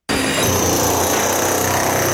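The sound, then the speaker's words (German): A jackhammer chisels out an old wall at a building site during a changing-room renovation, a loud, unbroken rattling roar that starts abruptly and runs steadily on its own. “hantiert mit einer Art Presslufthammer, wo ich auf die Baustelle komme. Jetzt sind wir gerade noch gewisse Sachen rausspitzen von der alten Wand, die wir entsorgen müssen”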